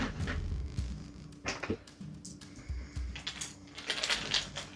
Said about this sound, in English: Oh, shoot. Dice down!